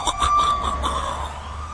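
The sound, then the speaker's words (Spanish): Emergency sirens wail on a heavy night in the city, a loud, sustained high tone that sweeps slowly with bright overtones over a low engine rumble. “Noche pesada en la ciudad. Sirenas sonando, patrullas por todas partes”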